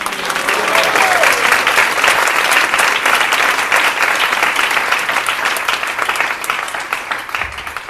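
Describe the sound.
Dense clapping from a large audience welcoming the fourth battalion and Gurukul students at a gathering. It runs continuously, holds steady and thins slightly toward the end.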